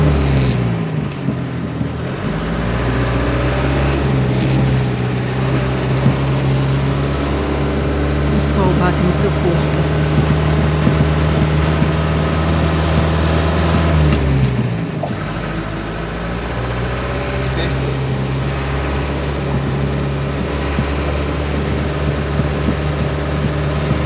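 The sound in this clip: A truck engine starts and keeps running with a steady, heavy low rumble and hum that briefly dips midway before settling back into its even drone.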